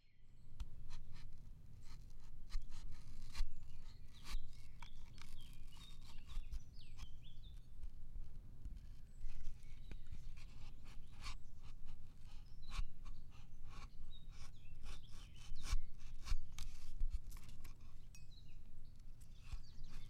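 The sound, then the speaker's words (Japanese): Knife cutting and peeling fresh fruit before grating, a steady run of many short scratchy strokes and slicing scrapes over a low constant background, with no voices. “今回はすりおろすから皮も剥かねばな。では、切るぞ。”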